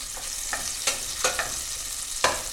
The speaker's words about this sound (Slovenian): dober kos masla, se grejem v loncu, čakam, da se lepo raztopi